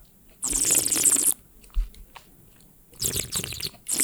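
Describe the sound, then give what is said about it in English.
Air drawn through a mouthful of wine during tasting: several gurgling, hissy slurps, a long one first, then short bursts and another cluster, with no talk. “Just kind of hold it in your mouth and let the acidity of the wine become a little bit more apparent to you. Okay. And then draw some air through it gently, kind of like this.”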